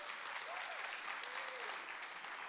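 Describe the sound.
Applause from a church audience welcoming a pastor and his wife: a thick, continuous wash of clapping at an even level from start to finish.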